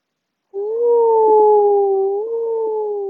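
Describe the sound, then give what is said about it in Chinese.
A little girl howls like a ghost, her voice imitating a spooky drawn-out wail. The loud, steady mid-pitched tone starts abruptly, lifts slightly about two-thirds of the way through, and continues alone. “小公主叫了起来，这声音听起来像幽灵。”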